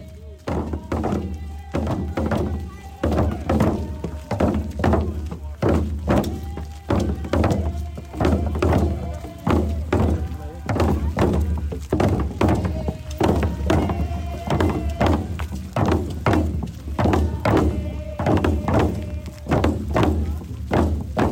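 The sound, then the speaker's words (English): Many hammer blows as a crowd drives a metal cross into the ground on a front lawn. A long run of steady, rhythmic thunks with voices faintly underneath. “That is the sound of a metal cross being hammered by many people into the ground where Warren Morris”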